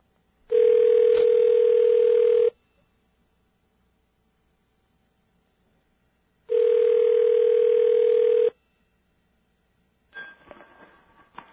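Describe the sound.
A telephone line rings after a number is dialed, with two long, steady, buzzy tones of about two seconds each separated by silence, then faint noise toward the end.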